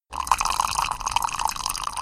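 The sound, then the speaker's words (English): Liquid pouring as perfume is poured back into large casks: a steady, continuous splashing gurgle that runs the whole clip at an even level, with no voices. “as the perfume merchant is pouring the perfume back into the large casks”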